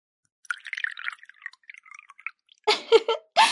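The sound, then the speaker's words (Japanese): Sake poured from a bottle into a cup, heard as a light, uneven trickle of small gurgling drips. A few louder, fuller bursts follow near the end. “お疲れでしょうし、まずは一杯どうぞ。お酌させていただきます。”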